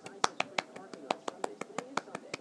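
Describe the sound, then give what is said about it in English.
Quiet, polite golf-style clapping: a steady, even run of many soft, crisp claps that continues without pause. “So it's like a polite clap?”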